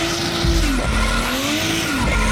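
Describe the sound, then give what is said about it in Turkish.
Modified cars drifting at a drift festival in Sivas, tyres squealing in a loud, continuous, high screech over a steady roaring engine, with pitch shifts as the slide changes. “Drift Festivali'nde modifiye araç tutkunları Sivas'ta bir araya geldi.”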